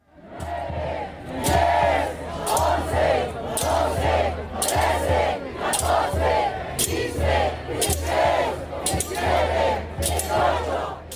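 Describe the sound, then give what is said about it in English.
A protest crowd in Mexico City, against the president and over 43 disappeared students, chants a count to 43. Loud, rhythmic bursts of many voices shout together about once a second without a break. “So what you heard there was protesters actually counting up to the number 43 to represent the number of students that had disappeared.”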